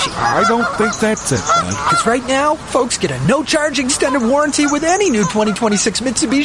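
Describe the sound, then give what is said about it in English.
Geese honking over and over, many loud nasal honks in a ragged stream that runs through the whole clip, heard beneath and between people talking. “Pretty sure it's geese”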